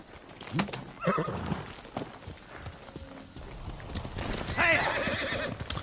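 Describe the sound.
Horse neighing and hoofbeats in a video game: uneven clip-clop and rustling steps build toward a loud, high whinny near the end.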